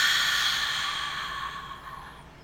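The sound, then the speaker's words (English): A slow, deep exhale released during a guided breathing exercise, an airy breath that begins full and gradually fades away over a few seconds. “Okay, so take a deep breath in. Hold it. And release.”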